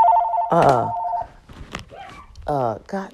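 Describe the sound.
A mobile phone rings with a steady, two-tone electronic ringtone that overlaps a speaking voice and then cuts off. Talk continues afterward.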